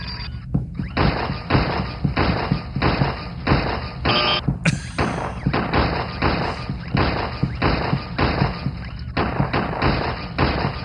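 Video game gunfire striking pop-up targets: a long run of loud, regularly spaced shot-like thuds, one roughly every half second, continuing steadily throughout with a brief higher metallic ring partway through.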